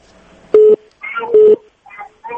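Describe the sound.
A telephone call being connected on a radio phone-in: two long, steady buzzing ring tones, with brief voice sounds between and after them.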